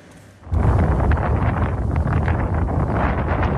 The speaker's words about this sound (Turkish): Çorum ve İzmir'den hortum görüntüleri geldi.